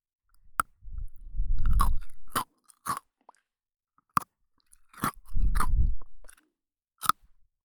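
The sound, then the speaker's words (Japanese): Crisp bites and chewing of Pocky biscuit sticks: sharp snapping clicks are scattered between two longer stretches of dense crunching, with quiet gaps in between and no talking. “食べて美味しい、聞いて気持ちいい。ポッキーで、お耳もハッピ”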